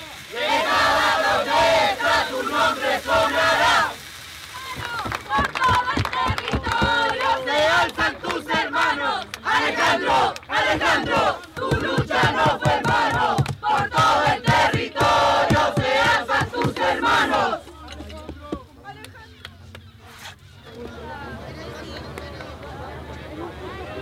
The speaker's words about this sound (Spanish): aquí nuestro compañero le queremos hacer nuestro último homenaje y un aplauso para Alejandro